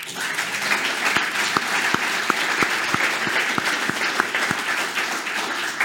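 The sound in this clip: An enthusiastic live audience in Montauban applauds. Dense clapping from many hands runs throughout, with a steady rhythmic beat of sharper claps cutting through the general applause.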